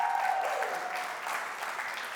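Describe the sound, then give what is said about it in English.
Applause from a church audience during a service: dense, steady clapping that holds at an even level for about two seconds, easing slightly toward the end. “Make some noise for them, come on.”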